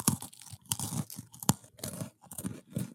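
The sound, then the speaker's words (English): Crunching and tearing as someone bites and chews a Magic: The Gathering card, with several crisp, crackly bites in an irregular rhythm and no speech over them. “I'm just eating a magic card. Oh, is that what that was? Yeah, I'm eating a magic card.”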